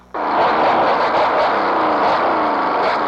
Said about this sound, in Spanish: Vaya, ni media hora tenemos de andar con este taxi y anda fallando.